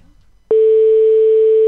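Telephone ringing tone on a call line: after a brief quiet moment, a single loud, steady pure tone starts abruptly and holds unbroken to the end.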